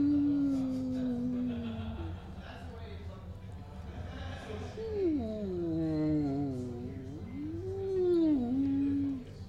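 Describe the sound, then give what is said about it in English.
A voice imitates whale calls with long, swooping moans that slide up and down in pitch and rise and fall in loudness. “hold on, I'm just turning up the whale sounds.”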